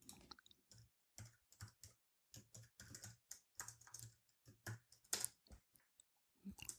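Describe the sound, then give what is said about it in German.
Typing a first name on a computer keyboard: quiet, quick clusters of many key clicks separated by short gaps, with no talk. “Nachname steht dran. Vorname tippe ich rein.”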